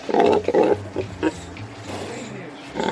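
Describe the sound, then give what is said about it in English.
Piglets squealing and squirming on a Danish pig farm, with loud, harsh squeals in bursts at first, then a steadier mass of squealing and grunting. “On Berit Nissen's farm, piglets squeal and squirm over one another as an old sow lazily opens an eye to glare at them.”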